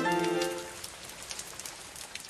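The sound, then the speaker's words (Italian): Rain beats on shutters and a plastic roof in a steady, dense patter, with a few sharper drop hits standing out toward the end. “La pioggia sbatteva sulle persiane e sulla tettoia di plastica.”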